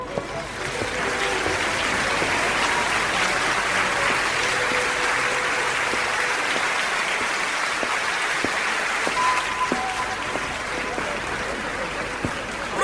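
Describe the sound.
Applause from a crowd at a public gathering, a dense, steady hiss of many hands clapping that holds at an even level throughout.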